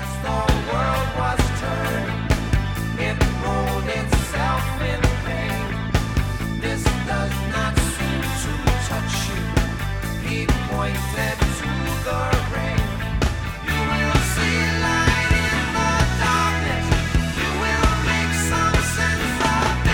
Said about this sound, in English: I love this song and it sounds like this.